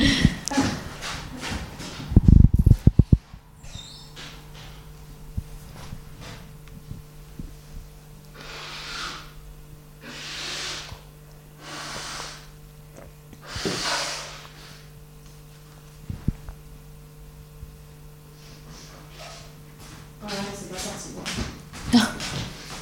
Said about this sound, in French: pardon je suis en train de m'enrhumer là attends je vais moucher